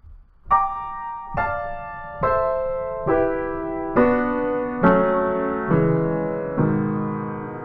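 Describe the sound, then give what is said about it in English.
A descending sequence of minor chords, eight struck one after another at an even pace, each ringing and decaying before the next, with the lower notes stepping down through the run. “They're all minor chords, and they sound like this, just going down in the same order.”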